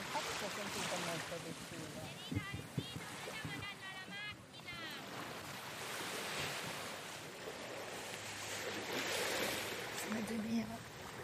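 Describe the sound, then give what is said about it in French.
Sea waves surging and washing in a continuous roar, with wind buffeting the microphone and brief voices under the surf. “Son seul de mer.”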